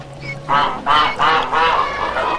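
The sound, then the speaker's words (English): Honking of a gaggle of white geese beside a bath in a stable: a few loud, nasal, harmonic calls in quick succession, with no talk. “By the bath, a gaggle of white geese.”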